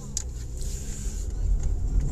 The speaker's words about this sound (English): live from the car studio. I am headed back to work.